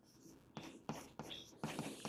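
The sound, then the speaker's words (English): Handwriting during a physics lecture, four faint, scratchy strokes with short pauses between them and no talk. “So let me just write it down and then I'll explain all of the pieces.”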